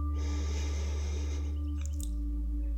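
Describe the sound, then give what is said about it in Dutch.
A slow, deep breath drawn in through the nose during a guided relaxation exercise: a soft airy hiss lasting about a second, set over steady, sustained calm tones that continue after it fades. “Adem daarom maar eens eventjes diep in door je neus.”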